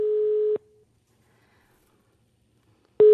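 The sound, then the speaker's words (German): Ringback tone of an outgoing telephone call to the federal office of a pregnancy counselling association: a steady single-pitched beep lasting about half a second, then near silence, then the next beep starting. “habe beim Bundesverband von Donum Vitae, also der Beratungsstelle, bei der Caroline war, angerufen.”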